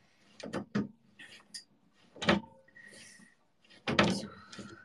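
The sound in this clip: A door shut on a self-built shelf, giving a few sharp wooden knocks and clacks with quiet rattling between them.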